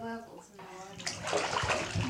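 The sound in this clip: A child blows bubbles in water, making a soft bubbling gurgle that follows a brief bit of a voice speaking at the start.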